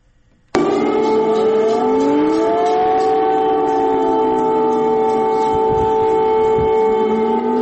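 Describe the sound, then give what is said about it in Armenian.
Air raid siren wailing in Kyiv, a loud sustained tone that starts abruptly and holds steady, with its pitch slowly rising and bending under layered harmonics, with no talk. “Ուկրաինայի մայրաքաղաք Կիևի բնակիչներին այսօր արթնացրել է օթային տագնապի մասին ահազանգող շչակը։”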